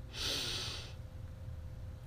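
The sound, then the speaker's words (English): A single sudden, quick puffing exhale in a seated breathing exercise gives a sharp, breathy rush of air lasting under a second, then fades to faint background. “and exhale suddenly and quickly. So just like I did, make a puffing sound while exhaling.”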